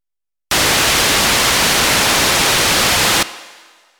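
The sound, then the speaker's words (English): Raw pitchless synthesizer noise: a loud, even hiss that starts abruptly, holds steady for nearly three seconds, then drops off into a brief fading tail. “There's also a completely different kind of sound, which is called noise. It does not have a pitch, or you could describe it as all possible pitches stacked on top of each other, and it sounds like this.”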